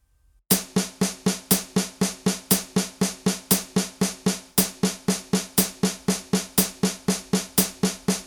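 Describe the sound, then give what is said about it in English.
Musical notes played as sixteenth notes, four per beat, in a fast, perfectly even stream of identical plucked-sounding tones, each with a sharp attack and quick decay, continuing steadily after a brief silent start. “Every eighth note is going to split into 2 sixteenths. That gives us 4 notes on a beat, and they sound like this.”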